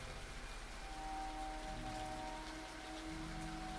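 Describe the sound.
Steady rain falls in a faint, continuous patter with no single drops standing out and no voices.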